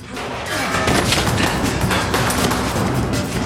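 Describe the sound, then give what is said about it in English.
Gunfire in a police drama shootout, a loud, dense burst of overlapping shots and booms that begins about half a second in and continues steadily. “The man shoots back at him and misses.”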